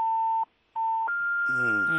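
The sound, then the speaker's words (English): Call-waiting beeps sound on a phone line: two steady mid-pitched tones separated by a short gap, then a higher sustained tone as a voice starts talking. “I think your phone, there's somebody who's trying to call you”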